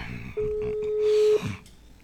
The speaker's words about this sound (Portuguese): Vou ligar para aquele cara ali, não quero nem saber ali. Ele vai ter que falar comigo hoje.